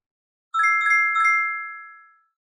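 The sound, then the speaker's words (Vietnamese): A mobile phone ringtone plays alone: three quick, bright chiming notes, then a long ringing tone that slowly fades away. “Đột nhiên tiếng chuông điện thoại di động vang lên.”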